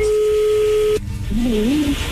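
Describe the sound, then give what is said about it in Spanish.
A telephone call connecting: a steady ringing tone holds for about a second, then cuts off abruptly, and a short voice-like sound follows as the line opens. “A ver, ya entra ahí la llamada, no haga ruido.”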